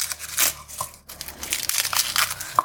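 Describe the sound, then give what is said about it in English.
Garlic cloves are crushed with a knife, giving irregular crackly crunching and crinkling that carries on throughout with a brief lull midway. “And we need a couple more cloves of garlic. So about 2 cloves of garlic. We're going to crush those.”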